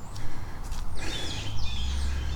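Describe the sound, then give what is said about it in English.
Angry, harsh bird squawking beside a creek, a few rough, high-pitched calls in the latter half over a steady low rushing background. “Squawk, squawk, angry squawk behind me.”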